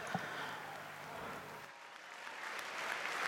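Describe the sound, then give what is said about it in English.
Applause from an audience thanking performers: a steady, fairly faint wash of dense clapping, with a low hum under the first half that drops away. “Huge applause”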